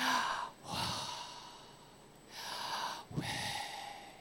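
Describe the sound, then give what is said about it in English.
Slow exhaled breaths, soft airy whooshes that rise and fade one after another, faint and alone with no talking. “You know what YHWH is? It's the sound of your breath.”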